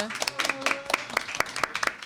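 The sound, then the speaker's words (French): A small crowd at an evening event with masked and costumed guests claps for a shy person speaking on the microphone for the first time. Distinct, uneven claps patter along, with voices audible underneath. “Oh là là, on l'applaudit pour sa première fois.”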